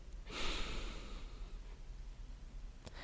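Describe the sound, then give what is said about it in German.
Slow exhale through the nose during a guided breathing exercise, a soft airy rush that swells and then gradually fades, with no talk. “die kühle Luft spüren und wahrnehmen und ausatmen durch die Nase.”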